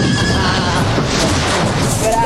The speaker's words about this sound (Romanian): Iată-ți Napoleonul și dă-mi calul. Ăsta e cal de general.